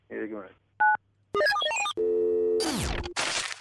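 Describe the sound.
A mobile phone sounds a single short keypress tone for key 9, a steady two-note beep, set among brief bursts of other electronic telephone tones.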